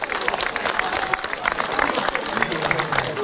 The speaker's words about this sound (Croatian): Pa vas molimo još jedan veliki pljesak za folklor Pazin i njihov nastup.